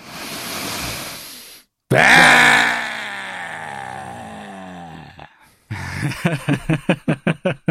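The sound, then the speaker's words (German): A group in a breathing exercise draws a deep breath together, then lets out a long, loud cry with tongues stuck out, its pitch sliding downward. A burst of rhythmic, pulsing laughter follows. “Also wir atmen gemeinsam tief ein und dann eben die Zunge ausstrecken, Augen nach oben rollen und beischreien.”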